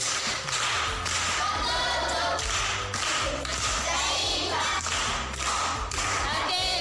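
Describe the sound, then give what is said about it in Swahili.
Applause from a group at a primary school event, greeting a pupil who answered correctly: dense, loud clapping that continues without a break for the whole clip, with a steady low rumble beneath it. “Makofi kwa Kitura.”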